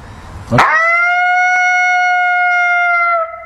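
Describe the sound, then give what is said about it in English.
An imitated lonesome howl call sounds once, a loud, clear, sustained tone that starts abruptly, holds a steady pitch for nearly three seconds, then cuts off. “Maybe two of those or three of those like that. Nice and loud, crisp. And then I'll wait for a response. And sometimes I'll hear them responding in a challenge, or they'll just do another lonesome howl.”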